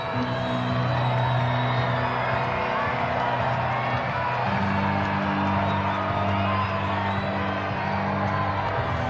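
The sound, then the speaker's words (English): Baseball crowd cheering and whooping during a late-inning rally with two on and two outs, a loud, steady roar of many voices that holds throughout with scattered shouts above it. “Crowd comes to life again.”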